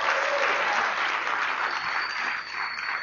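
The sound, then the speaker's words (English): A church audience applauds a student pastor marking ten years of service, loud, full clapping from many people that holds steady throughout and eases slightly toward the end. “We're going to clap for you.”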